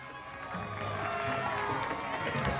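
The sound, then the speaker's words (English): Neighbours cheering and clapping in a street outside a Queens apartment building, a lively crowd with shouting and whooping voices, some of them children, over scattered sharp claps, growing slightly louder toward the end. “Back in Queens, Charlie and Muriel's neighbors are applauding them.”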